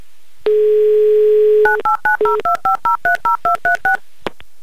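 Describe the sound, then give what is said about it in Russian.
A steady telephone dial tone holds for about a second, then a quick, evenly spaced run of touch-tone beeps dials a number, followed by a faint click; no voices. “Надеемся, что назовете эту шутку. Набираю ваш номер.”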